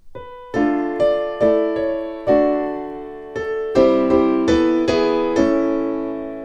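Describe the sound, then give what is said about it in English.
A melody set with modal harmony in a 1595 setting unfolds as a series of struck chords, each ringing and fading. They come in an even, unhurried rhythm with no voices, and a longer sustained chord closes the phrase. “And that's modal harmony.”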